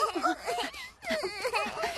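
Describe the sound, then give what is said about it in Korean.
A young child cries in pain: wavering, high-pitched wails and whimpers that break off briefly in the middle, then resume in uneven, sobbing moans. “많이 아파? 이런 걸로 울면 안 돼, 루카.”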